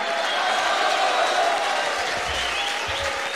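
Audience applause and cheering for a musician introduced on stage, a dense, steady wash of clapping that holds at an even loudness throughout.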